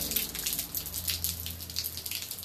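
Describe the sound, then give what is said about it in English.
Light rain falling outdoors after a heavy morning downpour: a steady, even hiss of patter with scattered sharp droplet ticks running throughout, continuous and without voices. “It's like a light rain, still raining hard, but not half as bad as it was this morning.”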